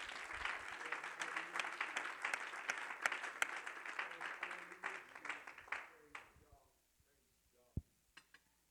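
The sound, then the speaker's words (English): A church audience claps hands together during a sermon, a dense, loud burst of applause that holds steady for about six seconds, then thins out and fades, leaving a few scattered claps. “If that makes sense, would you clap your hands to the Lord?”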